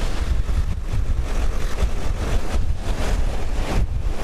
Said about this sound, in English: I mean, these waves are crashing into these rocks, and of course, the spray is up in the air.